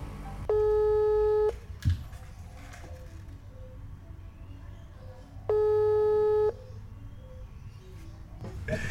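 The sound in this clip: Ringback tone on a telephone call while dialing: two steady one-second tones separated by a long gap, over a low background hum.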